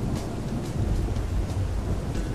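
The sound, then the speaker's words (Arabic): Rain and thunder in a winter storm: a steady hiss of rainfall over a deep, continuous rolling rumble that lasts the whole stretch, with no voices. “صوت الشتاء المطر نور البرق وصوت الرعد.”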